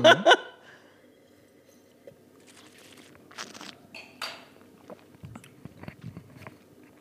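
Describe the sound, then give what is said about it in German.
Wine is swished and slurped over the palate during a tasting: a couple of sharp mouth noises open, then soft, irregular wet gurgles and smacks follow. “Du machst das natürlich so ganz fachmännisch, dass man dann auch hört, dass du den Wein gerade so über den Gaumen so, wie nennt man das, spülst?”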